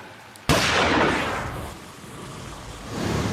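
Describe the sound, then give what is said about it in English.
A single pistol shot fired at a monster's eyeball: one sharp, loud crack about half a second in, trailing into a long decaying boom, with a steady low rumble swelling again near the end. “Zack fires a single pistol shot at Kaysen's monster eyeball.”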